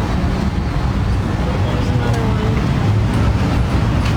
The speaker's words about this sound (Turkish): Şu anda Texas Austin'de otonom taksideyim.